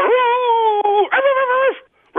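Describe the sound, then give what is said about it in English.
A dog gives two long, drawn-out whining yowls, each holding steady and then dropping in pitch at the end. They are loud and clear, with no other sound around them. “Long time since we've seen or heard from this canine. We go to Paul's dog.”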